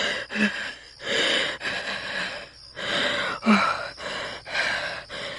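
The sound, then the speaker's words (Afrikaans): Laboured, ragged breathing of a man with broken ribs: many heavy gasping breaths in an uneven rhythm. Two inhalations catch in short, low, strained voiced groans. “My ribbes is af, ek kan sukker asemhaal.”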